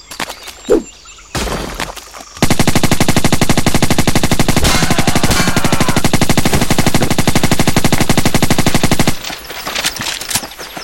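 Rapid automatic turret gunfire in a video game pours out as one loud, dense burst lasting about seven seconds, with fainter clattering shots just before and after.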